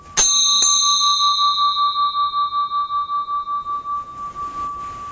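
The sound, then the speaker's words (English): A bell is struck twice in quick succession. Its clear, high tone then rings on for several seconds with a pulsing, wavering shimmer as it slowly fades. “It's quite a remarkable bell.”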